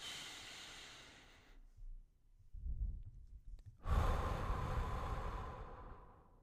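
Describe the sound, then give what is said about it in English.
A deep breath drawn in through the nose during a guided breathing exercise: a long, breathy hiss that swells and holds, preceded by quieter airy breathing. “One big breath through the nose.”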